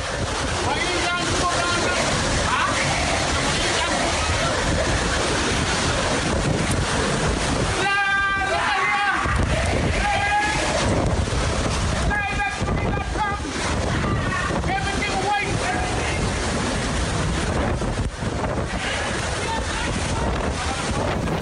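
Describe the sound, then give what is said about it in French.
Hurricane Irma's winds north of Saint-Martin, in an amateur recording: a loud, unbroken roar of wind buffeting the microphone, with wavering howling tones rising over it at moments. “Avant-hier, au nord de Saint-Martin, passage de l'ouragan Irma. Écoutez.”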